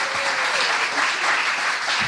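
Audience applause for a performer at an evening stage show, a dense, continuous roar of many hands clapping at a steady, loud level across the whole stretch.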